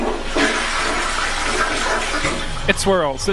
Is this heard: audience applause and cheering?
no